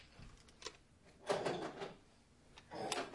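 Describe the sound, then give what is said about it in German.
The small door of a box being shut, heard as a few faint wooden knocks and clatters, with the loudest thump in the middle and another near the end. “Sperre ich dich so hier in die Kiste. So. Tür zu, fertig.”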